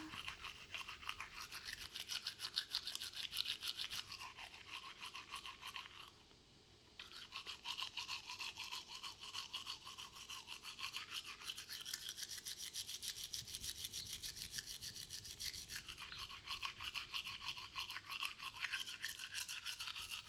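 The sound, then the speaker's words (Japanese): Toothbrush scrubbing teeth with brisk, continuous back-and-forth strokes, a steady gritty rasp that carries on alone for the whole stretch and breaks off only in one short pause near the start. “糸切り歯と前歯は歯ブラシを縦に向けてゴシゴシしていくよ。”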